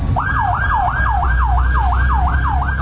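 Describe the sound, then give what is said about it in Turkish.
A fire engine siren on a boulevard in Diyarbakır, responding to a fire call, wails loud and steady in quick repeating yelps, each tone sweeping sharply up and then sliding down, over a constant low rumble. “Silvan Bulvarı'nda yangın ihbarı için yola çıkan itfaiye ekiplerine sürücüler yol vermek için fermuar sistemine geçti.”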